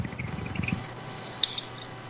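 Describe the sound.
Water bubbles in a water pipe as a bong hit is taken, a quick rhythmic gurgle of many small pulses that fades out, leaving a faint hush with a tiny click.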